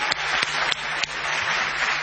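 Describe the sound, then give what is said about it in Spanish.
An audience ovation opening a show: continuous loud applause with a few sharper, regularly spaced claps standing out from the dense wash of clapping. “El programa comienza con una ovación a Patricio Barton.”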